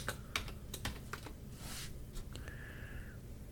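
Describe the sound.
Keys tapped on a computer keyboard in a faint, irregular run of clicks, followed near the end by a brief steady whine.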